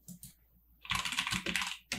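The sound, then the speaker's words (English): Someone types the .NET FSI command into a VS Code terminal on Ubuntu, two light keystrokes followed by a quick, clattering run of key presses and a final tap. “To start F-Sharp Interactive, enter the .NET FSI command into the terminal.”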